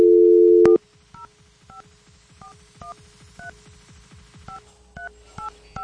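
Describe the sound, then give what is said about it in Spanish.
A telephone number is dialed on a touch-tone phone: a steady dial tone cuts off, then many short two-pitched beeps follow in an uneven rhythm over a low, pulsing background. “Ok, ya estamos marcando.”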